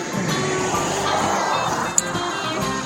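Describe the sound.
Road traffic rumbles in the background as a continuous, fairly loud wash of vehicle noise, steady throughout.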